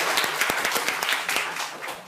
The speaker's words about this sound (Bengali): সঠিক উত্তর, তারা হাততালি দাও ঋষিকার জন্য।